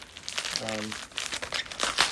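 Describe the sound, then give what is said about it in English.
Plastic crinkles and crackles as tape is pulled off a taped-up plastic bag package about the size of a softcover book, with a brief voice partway through. “In fact, because it's pretty much all tape, let's see if I can open it by, oops, by just removing the tape.”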